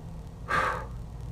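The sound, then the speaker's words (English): A single deliberate breath, drawn sharply during a ritual to direct energy. It is short and breathy, rising clearly above a quiet background before easing away. “When I breathe like that, I'm directing the energy I'm directing the energy with my breath.”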